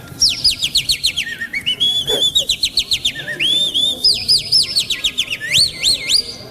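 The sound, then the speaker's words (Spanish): A pet bird sings in quick, high chirps and warbling trills, a continuous bright run of repeated whistled notes with sweeping pitch that carries on without pause. “Es mi pajarito. Es de verdad.”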